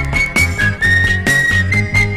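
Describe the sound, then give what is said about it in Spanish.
A person whistles a signal tune: clear, sustained high notes ride over rhythmic music with a pulsing bass and regular percussion hits. “Yo con muchas ansias estaré esperándote silbar. No te olvides, cielo, de salir si escuchas mi silbido.”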